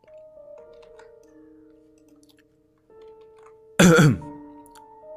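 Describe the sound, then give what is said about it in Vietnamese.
A single dry cough cuts in as one short, sharp burst. It stands out clearly against a quiet, sustained tonal background. “Cát lão đại ho khan một tiếng nói”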